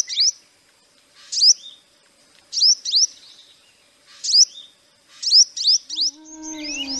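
A sunbird, a tiny bird smaller than a sparrow, sits on a young branch and gives rhythmic bursts of high, sharp chirps, often doubled. Several phrases repeat at steady intervals, and a lower tonal call joins near the end.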